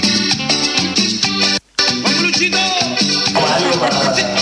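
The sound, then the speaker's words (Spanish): Rhythmic music plays at a polling station during an election. It is loud and continuous, with a dense mix of instruments and one brief cut partway through. “Y oigan, acá en la mesa 333 hay música, no sé si lo pueden escuchar de fondo, no sé de dónde viene exactamente, pero escuchen.”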